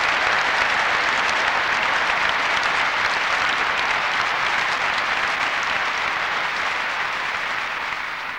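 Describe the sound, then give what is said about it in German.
Dense, steady audience applause fills a church, the Kreuzkirche in Dresden, during a peace forum; the even clapping holds at a constant level for the whole stretch with no talk over it. “Wenn ihr so viel klatscht, verbrauchen wir zu viel Zeit.”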